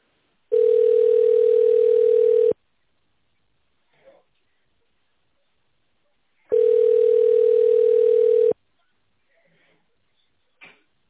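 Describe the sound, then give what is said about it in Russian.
A telephone line tone plays while a call is being transferred: two long, steady, mid-pitched beeps of equal length, separated by a silence broken only by faint small clicks. “Сейчас я попробую, конечно, вас на кого-то переключить.”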